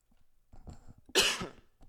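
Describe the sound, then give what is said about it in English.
A single short cough bursts out sharply over faint, soft background sounds and then trails off quickly. “excuse me, I had a little cough there.”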